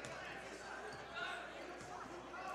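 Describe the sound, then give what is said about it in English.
A basketball is dribbled on the court during a high school boys' game, giving a few faint bounces under a low murmur of crowd noise. “Still has the dribble, going right to left.”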